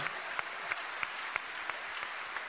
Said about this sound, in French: On peut l'applaudir, bien sûr